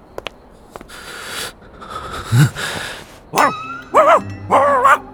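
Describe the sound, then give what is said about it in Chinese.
A small dog barks at a man, letting out a few sharp, high yipping barks in the second half after quieter scattered noises and clicks. “他冷酷地横了一眼那只狗，狗冲他叫”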